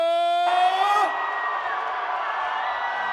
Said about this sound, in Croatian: Da vas čujemo, najveći vrisak za naše kralja